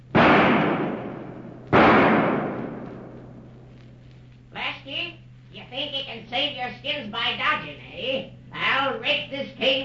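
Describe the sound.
Two sharp, loud gunshots crack in a cave about two seconds apart, each trailing off slowly, followed by voices talking over a low, steady hum.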